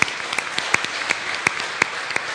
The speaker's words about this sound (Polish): Brawa dzieci dla cioci Asi.